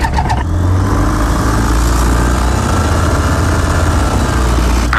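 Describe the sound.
A light aircraft engine starts up before takeoff and settles into a loud, steady drone with a heavy low rumble that continues unbroken to the end.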